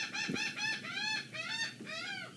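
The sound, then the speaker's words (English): Bird calling outdoors, a quick series of short, bright, harmonic calls repeating in a rough rhythm, fairly faint and alone without talk. “I'm outside and the bird wanted to say goodbye as well.”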